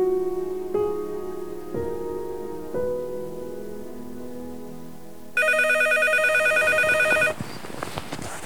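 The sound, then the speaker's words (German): Shrill telephone ringing in the morning: a dense, rattling electric bell burst lasting about two seconds, following a few quieter low tonal knocks. “Ein schrilles Klingeln riss ihn am nächsten Morgen aus wirren Träumen. Dass es das Telefon war, merkte er erst”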